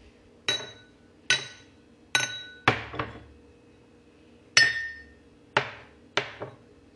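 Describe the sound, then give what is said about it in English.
Beer glasses clinking together in a series of sharp, bright strikes, each ringing briefly before fading. The taps come at uneven intervals, some in quick pairs, with no talk. “in case you didn't know what that sound was, it was glasses. Actually, they were beer glasses.”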